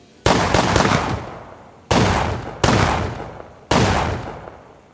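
Gunshots from a .22 pistol in a suburban Chicago home: four sharp, loud reports at uneven intervals, each followed by a long decaying tail.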